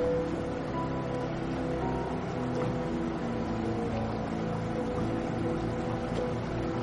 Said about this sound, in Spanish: A continuación, la motora de una familia se pone en marcha.